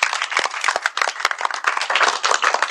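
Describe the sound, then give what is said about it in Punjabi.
Children clap loudly in a school gathering, a dense, rapid patter of many hands that continues steadily throughout without talk. “ਬਿਲਕੁਲ, ਜ਼ੋਰਦਾਰ ਤਾੜੀਆਂ ਵਜਾ ਦਿਓ ਵੀ।”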